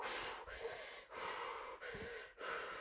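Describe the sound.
A person breathes slowly in and out: soft, faint, hissing airflow in several long strokes separated by brief pauses, with no talking.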